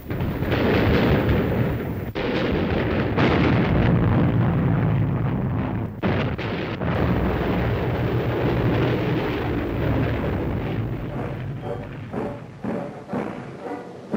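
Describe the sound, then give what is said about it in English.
Bombs dropped by German combat aircraft explode on a fort near Oslo: loud, heavy booming blasts merge into a continuous roar of rumbling detonations that barely lets up, with a couple of brief dips in intensity. “Das Schlüsselfort vor Oslo, das hartnäckigen Widerstand leistet, wird von deutschen Kampfflugzeugen mit Bomben belegt.”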